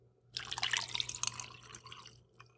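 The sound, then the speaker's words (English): Widow Jane rye whiskey, one and a half ounces, is poured into a mixing glass for a cocktail, a faint, splashy trickle of liquid lasting about two seconds that tapers off at the end. “I've got my mixing glass in front of me, and in there I'm going to pour 1 1/2 ounce of the Widow Jane rye”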